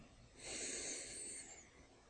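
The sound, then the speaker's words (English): A single deep breath in, a faint, airy hiss that swells and then fades over about a second, heard alone. “we will focus in our breath by taking a deep breath in”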